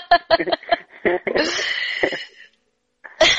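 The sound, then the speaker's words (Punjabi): A man coughs in the background: a few short, rough bursts, a brief lull, then one more burst near the end. “ਭਾਜੀ ਵੀ ਖੰਘੇ ਆ ਪਿੱਛੋਂ”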